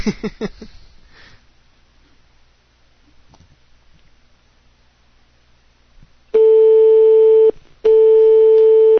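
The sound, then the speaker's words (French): A telephone line tone sounds while someone is being called: two long, loud, steady electronic tones in close succession, after several seconds of near silence with a little faint rustling. “on va appeler Jaina”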